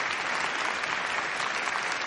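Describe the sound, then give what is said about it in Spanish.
A large crowd applauds in front of a big screen: dense, continuous clapping at a steady, even loudness throughout. “Una enorme multitud aplaude ante la gran pantalla. En Westminster los invitados aplauden también.”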